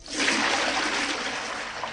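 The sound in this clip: Water is thrown over people in a dense, rushing splash that lasts about two seconds. The spray stays steady and fairly loud before easing slightly at the end, with no voices.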